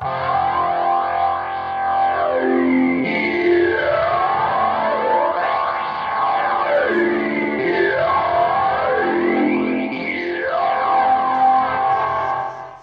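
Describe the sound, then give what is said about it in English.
Noisy, distorted drone from an Electro-Harmonix guitar effects pedal, held loud and steady, with repeated swooping pitch sweeps that arc up and down over it. “Noises are fun. It's a noisy pedal. Electroharmonics is great with noisy things, and really that's 80% of why I was excited to come down and try this thing out. Things like this.”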